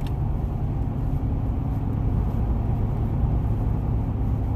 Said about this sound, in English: I had some snow on my truck, so it's all flying off right now.